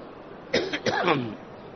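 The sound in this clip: A cough during a Quran commentary lecture: two short, rough voiced bursts close together, the second longer and trailing off, standing out against a quiet background.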